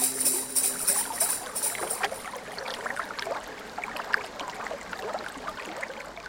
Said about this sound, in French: Rumeur de l'eau. Ce qu'elle emprunte à son lit de cailloux, en pente heureuse et douce